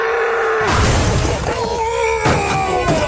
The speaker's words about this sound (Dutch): ineens breekt die stier uit, hè? Oh, yeah, yeah. Dat klinkt ongeveer zo.